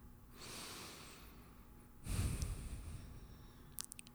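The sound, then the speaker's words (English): A slow, deep human breath taken during a guided breathing moment: a soft, airy inhale, then a louder, rougher exhale with a snort-like edge, followed by a few faint clicks. Quiet throughout, with no talk. “So take in a deep breath.”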